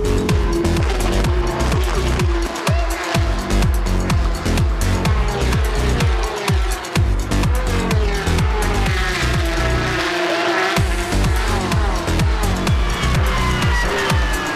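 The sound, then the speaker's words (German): Porsche Carrera Cup race cars roaring, a field of 29 cars on a circuit in the Ardennes; a loud, unbroken engine roar broken into many rapid pulsing bursts as cars blast past, with no voices. “Auch hier wieder dieses grandiose Starterfeld der 29 Cup Porsche und dieser Sound, der die Ardennen veredelt.”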